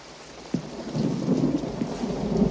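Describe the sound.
Rain falling steadily as a soft, continuous hiss and patter, with a dull low thump early on after which the rain noise grows slightly fuller; no voices.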